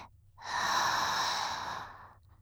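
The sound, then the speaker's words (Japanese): A slow, deep breath let out like a sigh during a guided breathing exercise: one long, steady, breathy exhalation that swells, holds and then fades, with no talking. “吐いて、ため息のように、吸って、新しい空気が体に、吐いて、”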